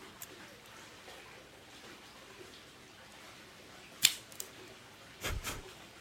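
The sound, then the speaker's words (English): A Cassetti multi-cutter makes a V-cut in an H. Upmann The Banker cigar: a sharp snap, a smaller click just after it, then a brief rough burst, all against near silence. “Now let's go ahead and give it a cut. Test out the cold draw. I am using my Cassetti multi-cutter on the V-cut.”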